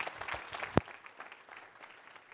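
A church audience applauds to welcome a guest minister of the gospel with a steady crackle of many hands clapping together. One sharp knock stands out early on, and the clapping then settles to a softer, even level.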